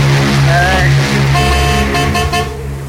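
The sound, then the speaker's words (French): Car horns honking in a playful horn-concert game, loud sustained tones that break into several long blasts and overlap one another in a steady, blaring chorus. “On va jouer à un concert de klaxon.”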